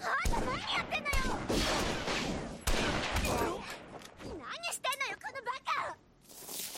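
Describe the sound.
Dense video game gunfire from a rifle and other weapons: loud, continuous bursts of shots and crashes with voices mixed in.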